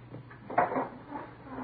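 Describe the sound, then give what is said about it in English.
A door being shut in an office, heard as a single soft thud that rises briefly above a low, steady background hum, with no voices. “Close the door, huh? Yeah, sure, sir.”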